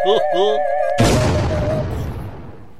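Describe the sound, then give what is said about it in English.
A comedic, deliberately unconvincing weapon fires with one sudden, heavy boom that fades into a rumbling tail, just after a brief wavering vocal sound. “I will fire a completely unconvincing weapon at him.”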